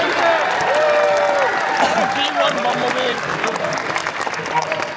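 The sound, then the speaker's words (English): An audience at a live moderated event cheers and applauds: dense, sustained clapping with shouts and whoops layered on top. Voices carry over it as the noise eases slightly toward the end. “Make some noise for my new friend here!”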